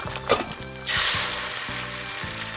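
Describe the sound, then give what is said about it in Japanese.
A hamburger patty sizzles in a pan: a short sharp sound, then a swelling hiss of frying that settles into a steady sizzle. “あとは丁寧に焼き上げてっと。横の焼き色が半分まで来たからひっくり返してっと。”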